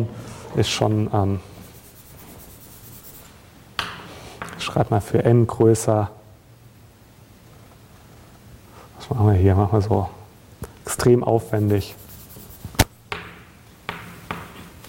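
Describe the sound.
Scratchy strokes of writing on a board during a lecture come in short bursts of rubbing and squeaking, mostly under and between the lecturer's steady speech.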